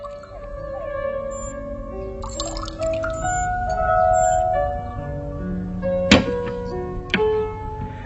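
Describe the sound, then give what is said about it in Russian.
Drinks being poured into shot glasses: a quiet trickling pour with ringing tones that shift in pitch, later broken by two sharp clicks about a second apart. “наливает рюмки, они выпивают”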